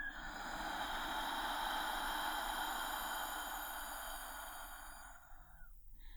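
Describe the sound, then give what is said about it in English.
A long, slow exhale during a guided breathing exercise, a soft airy rush that holds steady for several seconds and then tapers off, with no talking. “Hold it and breathe out.”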